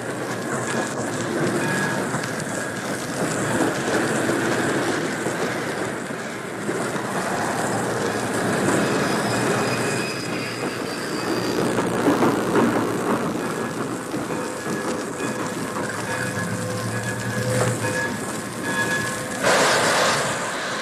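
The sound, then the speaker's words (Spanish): A passenger train's carriages rumble and clatter over the rails, with thin metallic wheel squeals now and then. The noise stays loud and steady throughout, with no voices. “De pronto, sintieron que el convoy iba disminuyendo su marcha.”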